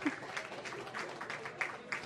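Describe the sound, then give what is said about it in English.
Faint applause from an audience at a high school basketball awards ceremony. Many hands patter in a dense, steady wash that lasts the whole clip. “Oh, go ahead, clap.”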